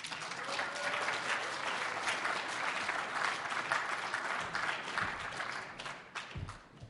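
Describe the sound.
Sustained audience applause welcoming a Conservative speaker to the stage at a political gathering: dense, steady clapping that fills about seven seconds and thins slightly toward the end, with no talk over it.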